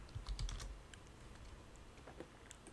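Keyboard typing: a quick burst of key clicks at the start, then sparse, faint taps that continue quietly to the end.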